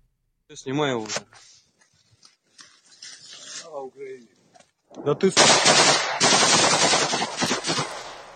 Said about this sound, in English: In the video, an unarmed soldier is shot after saying, quote, "Glory to Ukraine."